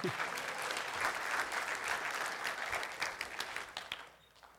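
Audience applause: dense, even clapping from many hands holds steady for about four seconds, then trails off quickly at the end.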